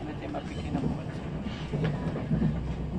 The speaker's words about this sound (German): welcome on board this TGV to Stuttgart via Strasbourg and Karlsruhe.